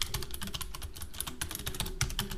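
Fingers type quickly on a computer keyboard, a fast, uneven stream of many light clicks continuing steadily throughout at a fairly soft level.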